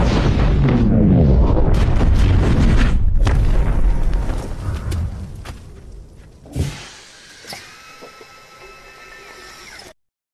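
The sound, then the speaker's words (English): A Jericho missile explodes in a movie scene as a heavy, roaring blast that rumbles for several seconds and fades. A sharp thud and smaller crackles follow, then a lingering tonal ring before the sound cuts off. “So for those who may not be familiar with that scene from the movie, the missile goes off and just the impact just blows everyone back, blows people's hats off. There's smoke”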